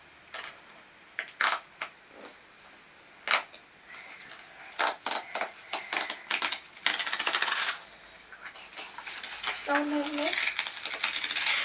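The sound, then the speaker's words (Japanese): Scissors cut with many sharp, crisp metallic snips at an irregular rhythm. Some come singly, others in quick clusters, and they grow denser toward the end. “これ切る、ハサミで。”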